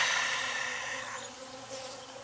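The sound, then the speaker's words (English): Worker bees crawling and buzzing inside a hive make a dense, steady insect drone. It stays fairly loud throughout and eases off slightly toward the end. “the bees are crawling on them, not ignoring them. So to me, that means I think I did better. You know, with the worker bees in there,”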